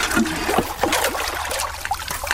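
Water flowing in a small stream at a screen set in front of a measuring probe, a continuous trickle with irregular splashy gurgles and sloshes.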